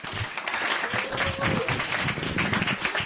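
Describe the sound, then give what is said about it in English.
Audience applause for a performer at a reading event: steady, dense clapping that holds an even level for the whole stretch. “That is Tom, ladies and gentlemen. Give him a hand.”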